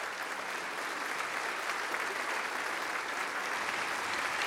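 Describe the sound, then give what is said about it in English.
An audience applauds to welcome an outreach team just back from South Africa. The clapping is a steady, even patter of many hands, fairly soft, with no pause. “Would you please welcome our South Africa team as they come on out? Put your hands together. Let's welcome them.”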